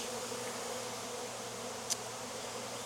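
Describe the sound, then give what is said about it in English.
Bees swarm and buzz over an open beehive, a steady, even drone of many insects droning together, broken only by one brief faint click partway through. “I'm not getting stung. I've mentioned every time I've gotten stung. I'm not getting stung in this hive.”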